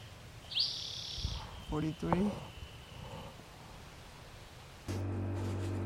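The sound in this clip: Bird calls from a collected specimen's recording: a sharp rising chirp, then a few short burbling notes, faint over steady hiss, before a low steady hum sets in near the end.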